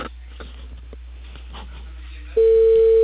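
A telephone tone sounds while a call is placed: one steady pitched tone that starts late, after quiet rustling on the line, and holds loud and unchanging to the end.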